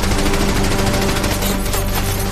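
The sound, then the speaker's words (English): Machine-gun fire bursts against the walls and windows of a company headquarters under attack in battle, a loud, dense, continuous rattle with no pause and no voices. “And the machine guns burst against the walls and windows.”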